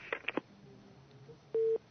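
A telephone busy tone sounds after a call cuts off on a call-in line: a few faint clicks, then a single short, steady low beep, quiet throughout.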